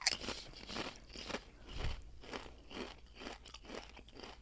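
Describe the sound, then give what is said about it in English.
A Pringles potato chip is bitten and chewed, giving a run of crisp, brittle crunches that repeat in quick, uneven bursts at low volume, with no talk. “And you bit just the corner. This has that classic Pringles shape. So I'm going with Pringles. It's Pringles.”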